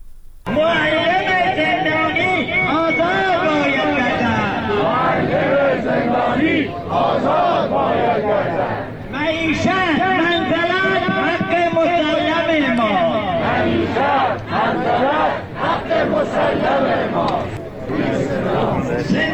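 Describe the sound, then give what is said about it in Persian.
Protesting teachers in Kermanshah chant slogans together. Many voices rise in loud, unison phrases, separated by brief pauses and carried by a rhythmic crowd cadence. “این صدای شعارهای معلمان معترض در کرمانشاه است.”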